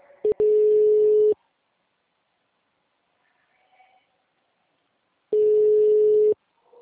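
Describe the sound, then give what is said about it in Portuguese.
An unanswered telephone call's ringback tone: two steady, one-second tones about four seconds apart, each starting with a small click, with near silence between them. “Tô ligando, não atende.”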